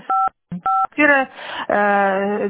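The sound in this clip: Telephone keypad DTMF tones during a phone call: two short, steady dual-pitch beeps with a brief low blip between them, followed by voiced, harmonic sounds that carry on to the end.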